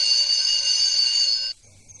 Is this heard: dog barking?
no